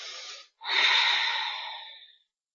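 A slow exhale during a guided meditation: a short breath, a brief pause, then one long, steady, airy outbreath that gradually fades to silence. Soft breathy noise alone, with no talk.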